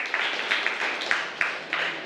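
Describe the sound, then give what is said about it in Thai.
Students in a classroom clap for a classmate, a light, uneven patter of hands with several slightly stronger bursts scattered through it. “ครับปรบมือเพื่อนด้วยนะครับ”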